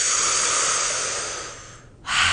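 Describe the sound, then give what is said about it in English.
Deep breathing exercise, inhaling and releasing: a long, airy rush of breath that gradually fades to near silence, then another forceful breath that begins abruptly. “So we will inhale with the sound of ooh, so and release. And one more time.”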